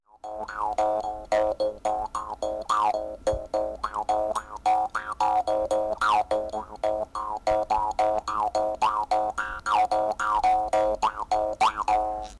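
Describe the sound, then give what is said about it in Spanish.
Twangy jaw harp (mouth harp) played in a low, monotone drone, with many quick plucked notes in a steady rhythm and a repeated wah-like vowel sweep shaping each note. It runs loud and continuous throughout. “Su sonido es grave y monocorde, y en muchas ocasiones se usa como diapasón. Sonido del arpa de boca.”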